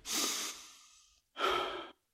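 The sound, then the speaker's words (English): Deep human breathing late at night: one long, loud breath that slowly fades, a short pause, then a second full breath that cuts off sharply. “Just breathe.”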